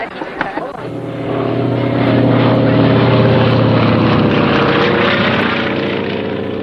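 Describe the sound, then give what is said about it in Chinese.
A propeller airplane flying while it drops leaflets gives a loud, steady, low buzzing engine drone that swells in after about a second and holds a sustained roar to the end. “一架飞机在撒传单”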